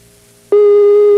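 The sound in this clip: A telephone ringing tone sounds while a call is placed: one steady, low-pitched beep starts abruptly after a faint line hiss and holds unbroken to the end.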